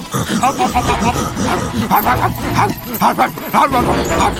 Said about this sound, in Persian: ایست، سگو بفرستین دنبالش.